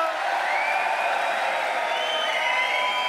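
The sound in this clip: An audience at a live show at the EICC in Edinburgh cheers and applauds as the act arrives on stage, a dense, steady roar of clapping and whoops that holds at an even level throughout.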